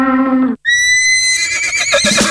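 A horse neighs loudly in a long, high-pitched whinny that quavers and breaks into a rougher, breathy ending. A brief lower-pitched tone comes just before it.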